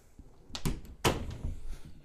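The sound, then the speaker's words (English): A door is opened, heard as a few hollow thumps and a sharp knock-like clatter in quick succession. “Well, I'm not going to open the door for you. I'm doing a podcast. I'll be done soon. But, oh my God. Okay, I'll open the door.”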